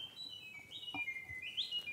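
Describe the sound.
Birds chirp faintly: a few thin, high whistled calls, some sliding upward in pitch, repeat over a soft background hiss.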